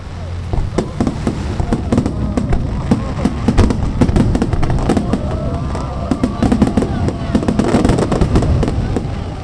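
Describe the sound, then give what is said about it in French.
Fireworks crackle and pop at the close of an evening festival in Taiwan, where burning boats drift on a river. Many sharp bangs and crackles overlap in a dense, steady barrage. “En plus, ça s'est conclu par un magnifique feu d'artifice.”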